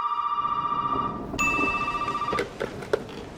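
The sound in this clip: A telephone rings in a video game: a warbling electronic ring, then a brighter, steadier tone, followed by a few sharp clicks as the ringing stops.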